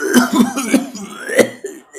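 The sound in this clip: Harsh coughing bursts follow a gulp of strong dwarven beer, performed by a voice: several sharp, rough coughs in quick succession, fairly loud, with throaty rasps between them.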